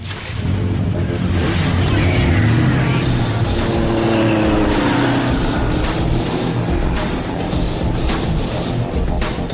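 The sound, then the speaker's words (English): Motorbike engines start and roar as riders burn along a warehouse aisle and out onto the street: a loud, sustained engine drone with a revving pitch sweep early on. “They mount their motorbikes, switch on their engines, burn along the main aisle of the warehouse and out onto the street.”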